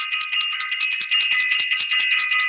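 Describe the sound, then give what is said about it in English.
A bell rung with a bright, high ringing tone that sustains throughout, pulsing slightly as it is struck again, clear and alone. “we want to ring the bell and send some love out to Self-Invested.”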